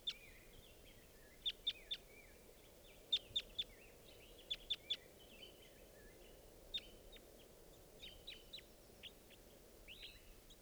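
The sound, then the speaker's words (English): Wild birds chirping in short, high, faint calls, mostly in quick clusters of two or three, with longer gaps between them and scattered single chirps later, over a low steady background hiss. “Joined by some others. There's three birds here now.”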